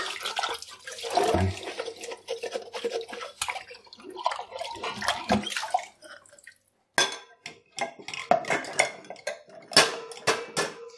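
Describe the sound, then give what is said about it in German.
Dishes and glasses washed by hand in water: many irregular clinks and clatters of glass and crockery mixed with splashing and dripping, with a short pause partway through and no talk. “Ah, da ist noch ein Glas. Ich glaube, dann muss ich mich auch erstmal ganz abtrocknen machen, bevor ich hier weiter abwaschen kann.”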